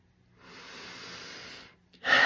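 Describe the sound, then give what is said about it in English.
A round of deep breathing: a long, steady, airy inhale lasting over a second, a brief pause, then a louder, harsher rush of breath out. “So that's why you breathe. Whenever you have to create something, whether it's a video, an email, a DM, you do a round of breathing”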